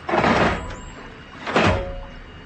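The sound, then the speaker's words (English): The hatch of a submarine-type contraption is shut and locked with two heavy door-like thuds about a second and a half apart, each trailing off in a short rushing decay. “He locked himself in that submarine-type contraption as if he was going for a spin down the Delaware.”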